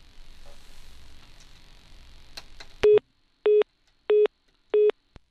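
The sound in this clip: Telephone busy tone on a phone-in line after a dropped call: four evenly spaced, identical beeps, each with an abrupt start and stop and clean gaps between them, following a stretch of faint line hiss and noise.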